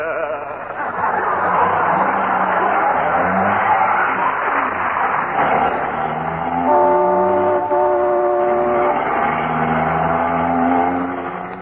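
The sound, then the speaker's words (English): A radio drama sound effect of a car driving fast through traffic: a steady, loud engine roar with rising and falling revs, joined partway through by a sustained horn-like tone. “Isn't he driving awfully fast, dearie? I'll say he is. We just went through a stoplight. I better tell him to slow down.”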